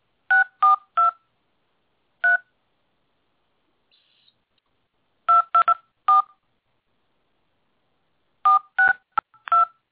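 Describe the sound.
Telephone keypad tones as a host PIN is entered on a call-in line: crisp dual-tone beeps come in three quick clusters plus one lone press, separated by stretches of silence, with no voices.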